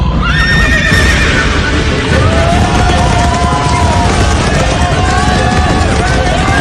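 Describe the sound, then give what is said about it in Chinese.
A horse gives a long, falling whinny over continuous drumming hooves as it gallops in a race, with crowd noise running underneath. “骑马加油，白鼻子冲啊”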